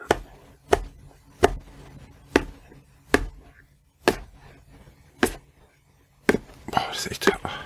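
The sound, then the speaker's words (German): A knife chops food finely into small pieces: about eight sharp, evenly spaced thuds, then a quicker flurry of chops, with soft voices murmuring. “Und das hackst du auch in kleine Stücke. Okay, aber auch ganz fein. Ganz fein, also kleiner wie die Butter.”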